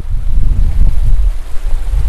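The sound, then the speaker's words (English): Blue-green water gurgling out of a power plant at the bottom of a dam on a river fork, a steady low churning rumble with soft irregular surges throughout and no voices. “At the bottom of the Cascade Dam on the North Fork of the Payette River, blue-green water gently gurgles out of a nearby power plant.”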